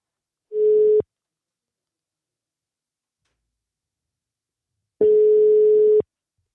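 A telephone line tone while a call is placed to a radio guest: two steady mid-pitched tones, a short one and then one lasting about a second, separated by roughly four seconds of silence.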